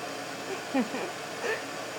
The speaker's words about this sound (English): I'm pushing around a vacuum right now.